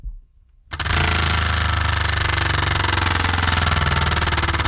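A giant prize wheel spins in a studio, giving a rapid, even stream of loud clacking after a short quiet start and carrying on steadily to the end.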